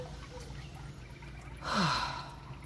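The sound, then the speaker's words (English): A single deep breath taken during a guided meditation, brief and fairly soft, rising out of a low steady hum and fading within about half a second. “So we'll take a nice deep inhale and exhale.”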